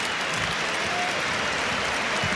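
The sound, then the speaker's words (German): Stadium crowd applause at a Bundesliga match between Bayern München and 1.FC Köln, honoring Bayern player Michael Olise; thick, sustained clapping from a huge crowd, steady and unbroken throughout. “Applaus für ihn, der Mann, der uns so unglaublich schöne Stunden bereitet hat.”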